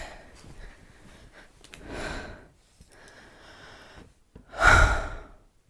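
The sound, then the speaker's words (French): Deep belly breaths taken while settling down to rest at home: a softer breathy exhale, then a pause, then one loud, long, airy breath near the end, with no talking. “Tu vois, c'est un, c'est un souffle qui vient du fond du ventre.”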